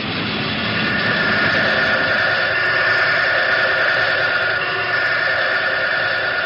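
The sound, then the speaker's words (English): Steady mechanical hum of the oil circulating device that pumps oil around the rotary condenser bearing inside an atom-smashing machine. A continuous, even drone with a constant tonal whine runs unchanged throughout, with no voices. “This is the oil circulating device that circulates oil around the bearing of the rotary condenser, which is inside the machine.”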